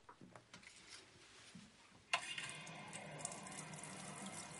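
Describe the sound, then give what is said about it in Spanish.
Water gushes from a kitchen tap into a sink as it fills, starting abruptly midway after a quiet stretch of faint clicks and handling, then holding as a steady, fairly loud rushing hiss until the end. “Se acerca con él al fregadero. Lo apoya en un lateral y abre el grifo.”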